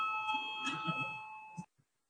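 Electric bell rung in a parliamentary chamber to call members to a vote, a steady ringing tone that holds for about a second and a half, then cuts off abruptly, with faint background noise beneath.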